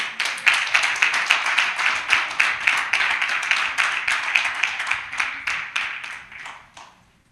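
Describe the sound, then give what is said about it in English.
An audience claps to welcome a woman onto the stage at a live event, with many quick claps in a steady, regular beat that carry on throughout and fade out at the end. “Can y'all give her a hand clap?”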